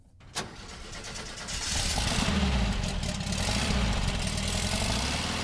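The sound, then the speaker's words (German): A Volkswagen Type 2 (VW Bulli) van's 25-horsepower engine starts with a sharp clunk, then settles into a steady, rumbling run that grows louder and holds a constant drone. “Der Sound ist unverkennbar, die Leistung war bescheiden. Ganze 25 PS hatte der Lastesel des Wirtschaftswunders, der VW Bulli, als er heute vor 60 Jahren das erste Mal auf die Straße rollte.”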